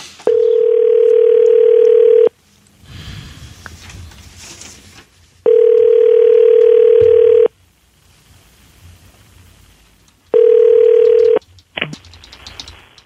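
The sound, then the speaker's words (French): Ringback tone of an outgoing telephone call during a card fraud-prevention call to a customer: three loud, steady single-pitch rings, the last one shorter, with quiet gaps between them and a brief click at the end. “Okay, on l'appelle. On l'appelle.”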